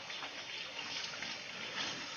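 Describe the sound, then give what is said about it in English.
Hands rinsed under running water: a steady, hissing flow with faint splashing. Quiet and continuous, with no voices. “I'm going to rinse my hands off”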